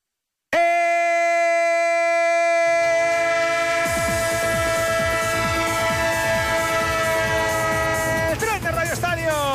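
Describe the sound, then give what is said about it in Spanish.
A train sound effect: a loud, sustained horn-like chord starts abruptly. Soon after, rhythmic clacking of wheels on rails joins it and continues under the horn to the end. “El tren de Onda Cero, el tren que pasa a las 4 puntual, a las 3 en Canarias”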